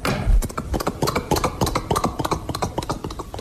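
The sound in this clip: Hooves clip-clop as several horses arrive along a road, a quick run of many sharp, fairly loud hoofbeats with an uneven, overlapping rhythm throughout.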